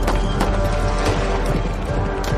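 Several horses gallop hard along a road lined with trees, producing a dense, steady pounding of many hoofbeats with sharp thuds, loud and continuous.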